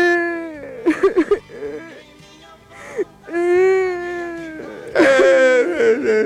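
A baby cries in loud, wailing sobs, with several drawn-out whimpering cries separated by short gasping pauses, the last one strongest.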